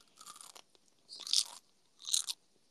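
Crunchy gummy candy bitten and chewed, making three crisp crunching bursts with no talk; the first is softer and the second and third are louder and sharper.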